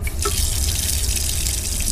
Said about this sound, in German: Erstmal Hände waschen.